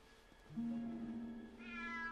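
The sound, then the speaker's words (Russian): A cat's single quiet, drawn-out meow holding a fairly steady pitch, alone without talk. “В коридоре сидит кот Филча. Смотрит точно на вышедшего из двери Гарри.”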